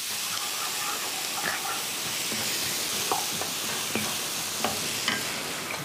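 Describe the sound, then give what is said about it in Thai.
Chopped onion, ginger, garlic and green chili stir-fry in a hot pan with a loud, steady sizzle and hiss, punctuated by a few sharp spatula clicks and scrapes. “หอมที่เราสับไว้ใส่ขิงใส่กระเทียมใส่พริกเขียว”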